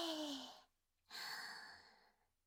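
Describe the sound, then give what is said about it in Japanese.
Deep breathing during a guided breathing exercise: two long, breathy airflows separated by a short pause, the first carrying a soft voiced, sigh-like tone, the second a steady rushing inhale that fades out. “一旦息を吐いて、いくよ。はい、息を大きく吸って、”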